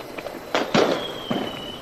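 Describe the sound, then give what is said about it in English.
Fireworks shooting out of a shower head crackle and pop in a few sharp, bright bursts over a continuous hiss, with a faint high whistle trailing through. “There's fireworks shower. Oh, that's a good angle. We should fucking tell people that fireworks are shooting out of our shower head.”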